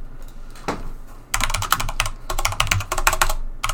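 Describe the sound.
Keystrokes clatter on a computer keyboard, starting with a few scattered taps, then breaking into dense, rapid bursts of typing with brief pauses between runs.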